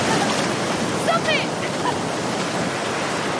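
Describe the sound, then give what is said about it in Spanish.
Ocean waves on a beach make a steady, rushing wash of surf, with a brief voice surfacing faintly over the noise partway through. “En la playa, Jorge y Ann salen del agua. Hay muchas olas.”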